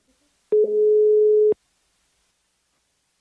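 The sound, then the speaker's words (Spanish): Ringback tone of an outgoing phone call: one steady, mid-pitched tone about a second long, then silence, with the next ring just starting at the very end. “Quiero hacer otra llamada. ¿Se puede hacer otra llamada? Ok, vamos a hacer otra llamada.”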